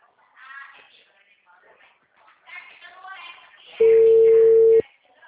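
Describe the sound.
A telephone call going unanswered gives a single steady, loud electronic tone lasting about a second, heard after a stretch of talking.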